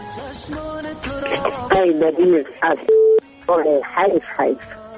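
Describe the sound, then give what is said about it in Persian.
Telephone tones as a call is being connected: a short, steady electronic beep stands out among brief tonal dialing sounds, mixed with a voice talking. “یک تماس دیگه رو وصل میسازم”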